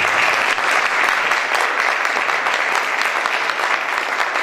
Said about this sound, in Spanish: Y pido un fuerte aplauso para el arranque.